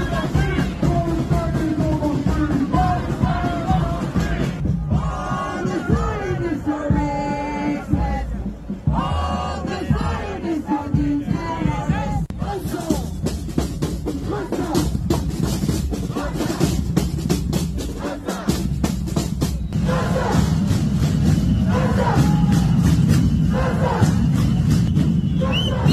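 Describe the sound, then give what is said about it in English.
A large crowd of Hamas supporters shouts and chants in a downtown Toronto street, massed voices loud and continuous, surging and overlapping for the whole stretch without a break. “But that's the sound of Hamas supporters in Toronto.”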